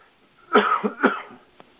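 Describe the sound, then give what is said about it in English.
A man gives two harsh, throaty coughs in quick succession, loud and alone, followed by a faint click. “Forgive me on this cough here. Something is wanting out.”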